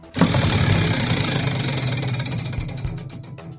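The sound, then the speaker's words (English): Prize wheel being spun: a loud whirring burst that settles into rapid ticking, with the clicks gradually slowing toward the end. “Let's spin that wheel.”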